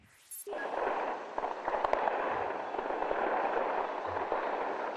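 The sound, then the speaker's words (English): Tracer fire over the capital Tripoli during airstrikes on air defenses: a continuous, fairly loud crackling roar with scattered sharp pops and thuds across the whole stretch. “The sound there of tracer fire lighting up the skies above the capital Tripoli as Allied forces continue to take out Libya's air defenses.”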